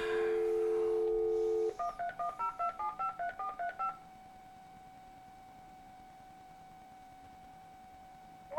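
Telephone tones from a call being placed to a guest: a steady dial tone, then a quick run of touch-tone keypad beeps, then a single faint, steady tone that holds until the end.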